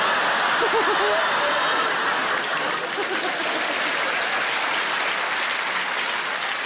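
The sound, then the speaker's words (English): An audience claps at a stand-up comedy show, a sustained, even stretch of many hands clapping with a few voices mixed in near the start. “Yeah, you're all clapping.”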